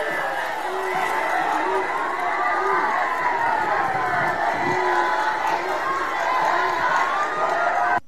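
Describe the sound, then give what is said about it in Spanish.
Crowd noise from a mass protest march of social security workers in San Luis Potosí, a dense, unbroken roar of many voices shouting and cheering that holds steady throughout. “Las imágenes, los sonidos de la marcha, de la mega marcha que se registró el día de ayer en San Luis Potosí y diversos estados de la República por parte de trabajadores del Seguro Social,”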